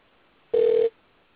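A single telephone ringing tone on a phone line while a dropped caller is dialed back, one steady mid-pitched beep lasting about a third of a second, alone against faint line hiss.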